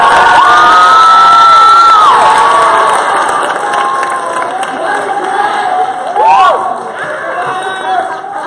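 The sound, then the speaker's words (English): A student crowd at a Granbury High School rally cheers and shouts loudly, a dense, sustained roar of yells and whoops that stays high throughout and swells again briefly near the end. “Y'all get loud real quick. Just get loud real quick.”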